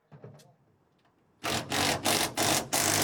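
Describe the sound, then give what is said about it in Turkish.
Screws being driven to fix a surfboard rack into existing holes: faint handling noises give way to a few loud, rough bursts of driving noise. “Sörf tahtası rafımızı buraya yerleştirdik. Mevcut deliklere vidalamaya çalışıyoruz.”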